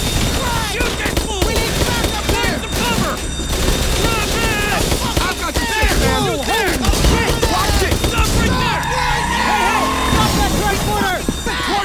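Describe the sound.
Gunfire in a video game set in Los Santos: many sharp, rapid shots crackle through the scene while several voices shout over them.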